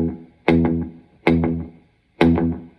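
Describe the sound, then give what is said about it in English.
Electric guitar notes through an old Boss DM3 delay pedal set for a rockabilly slapback: three plucked notes, each followed by one fast, loud repeat that decays quickly before the next note. “how to get that kind of rockabilly delay thing, which I'm using an old Boss DM3 today that I've had forever. And this is the repeat.”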